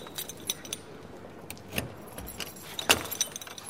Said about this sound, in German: der Fahrzeugtechniker, schließt auf.